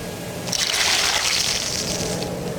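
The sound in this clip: Melted butter poured over a bowl of chicken soup, a smooth liquid stream with a bright hissing sizzle that lasts about two seconds before trailing off. No voices.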